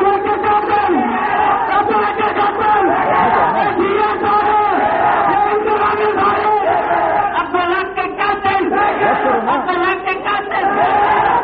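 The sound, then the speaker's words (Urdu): A crowd at a rally chants slogans, loud massed voices shouting in repeated bursts for over ten seconds with only a brief lull partway through. “اگر مجھے تفریح کرنے دینا ہے تو پھر آپ کو نعروں پہ کنٹرول کرنا ہوگا، نعروں پہ کنٹرول کیجئے۔”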